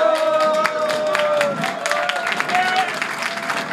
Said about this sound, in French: Son traditionnel stam de Glovelier étant déjà réservé, le nouveau ministre a été ovationné lors de son arrivée sur place.